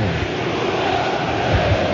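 Loud, unbroken roar of a football stadium crowd celebrating Cruzeiro's second goal against Barcelona, a dense wall of cheering that holds steady without pauses.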